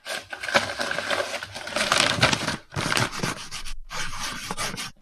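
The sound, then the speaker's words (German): A pen scratches loudly across a homework notebook in quick, rasping strokes, grouped into bursts separated by brief pauses. “Oh, schreibst du aber laut.”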